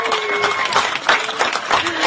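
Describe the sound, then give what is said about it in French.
The NASA team in Baltimore applauds and cheers the full deployment of the James Webb telescope. Bursts of clapping mix with raised voices in a lively, fairly loud outburst. “Les applaudissements sur Twitter et sur les télés américaines de l'équipe.”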